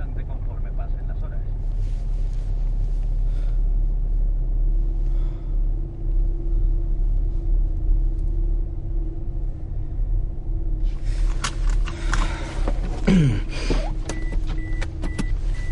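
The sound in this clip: A car coming to a stop on a road after clipping a cyclist: a steady low engine rumble runs throughout, with a brief burst of louder, sharper noise near the end.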